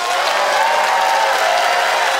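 Audience applause as a crowd votes by clapping at a debate-style event. The clapping is dense and sustained, holding a steady level for the whole stretch with no break.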